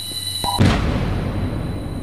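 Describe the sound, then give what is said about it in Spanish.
A single revolver gunshot is preceded by a faint click. It lands as one loud, sharp bang that spreads into a rumbling, slowly fading tail. “sacó un revólver y se pegó un tiro.”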